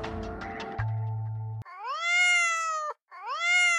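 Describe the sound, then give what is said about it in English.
A vocal sound-effects artist imitates a cat meowing: two drawn-out, wavering meows, the second cut short, following a brief stretch of other sound at the start. “Actually, any cat sound you hear will be that of a vocal artist sound effects person.”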